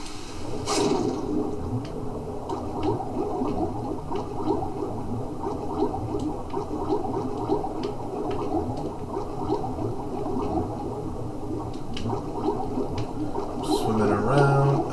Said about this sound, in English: Oh, more swimming on this side.